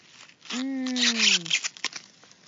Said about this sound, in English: So I'm just going to bend down and take an ear right off this plant. And I can just peel back the husk.